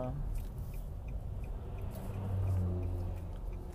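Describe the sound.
A car's engine rumbles steadily as it drives, a low, continuous drone that swells a little past the middle, with muffled voice traces over it.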